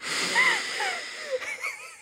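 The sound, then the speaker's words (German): A deep breath drawn in, quiet and airy with a faint wheezy whistle through most of the inhalation, ending in a few short uneven breathy catches, heard alone. “Einmal tief einatmen”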